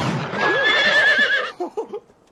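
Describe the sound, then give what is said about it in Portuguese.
A horse neighs: a shrill whinny holds for about a second and a half, then a few short, lower, fluttering bursts follow before it stops. “O cavalo. O cavalo.”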